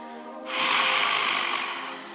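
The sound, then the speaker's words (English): A forceful yoga lion's breath exhale with the tongue stuck out: a long, loud, breathy rush of air that holds steady, then slowly tapers off. “Exhale, lion's breath. Really stick out your tongue.”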